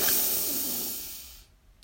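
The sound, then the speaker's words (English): A deep inhalation drawn in through the lungs during a guided breathing exercise: one long, soft, airy hiss that stays steady and then fades to silence near the end. “We'll breathe in really deep. We want to get any stale air out of our lungs. And then we will release with a loud, audible sigh. So let's breathe in”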